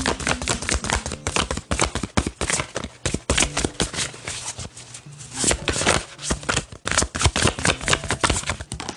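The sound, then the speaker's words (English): Cards are shuffled and drawn from an angel card deck, giving a steady, loud run of many crisp, dry clicks and soft slaps that continues for about nine seconds without talk. “let's get two cards from the Angel deck”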